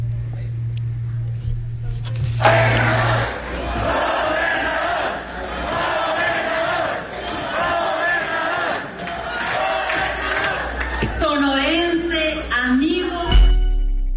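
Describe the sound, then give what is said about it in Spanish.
Movimiento Ciudadano supporters loudly chant and cheer a politician's arrival, the crowd's rhythmic calls holding for several seconds before voices talk near the end. “Vamos a escuchar cómo lo recibieron su gente, hay que decirlo, no es Población Abierta, son los que integran, los que militan en Movimiento Ciudadano. Vamos a escuchar el recibimiento.”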